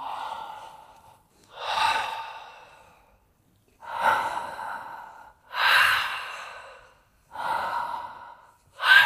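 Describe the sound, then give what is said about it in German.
Deep breaths taken as a breathing exercise: several slow, loud inhalations and exhalations follow one another in an even rhythm, with short pauses between them and no talk. “Erste Medizinkraft der Atem, an jedem Ort der Welt viele Atemzüge nehmen.”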